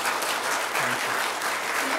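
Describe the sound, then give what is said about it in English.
Audience applause at a church fellowship gathering, dense, steady clapping that holds at an even level for the whole stretch. “So give it a little hand.”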